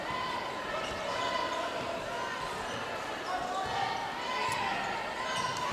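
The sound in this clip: A basketball dribbled on a court during a high school game between Mishawaka and South Bend Adams, a run of repeated bounces under background crowd chatter and voices.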